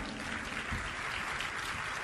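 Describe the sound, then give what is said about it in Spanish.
Audience applause during a religious sermon, a dense, steady burst of clapping that stays at an even level throughout with no voices over it. “Le invito a dar un aplauso a esta señora,”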